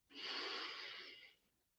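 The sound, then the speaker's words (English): A single long breath drawn in, a smooth airy hiss lasting about a second before fading to near silence; quiet and alone. “Take a breath.”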